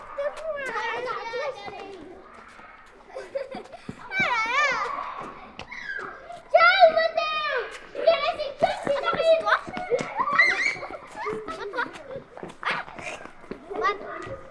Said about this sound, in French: Les enfants, eux, font ce qu'ils savent faire de mieux, du bruit.